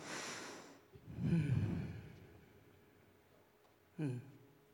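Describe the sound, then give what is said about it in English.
A person breathing slowly in and out during a guided breathing moment: a few soft, airy breaths, one louder and rougher in the middle, and a short sharper breath near the end, with no talk. “Now I'm going to breathe and invite you to do the same.”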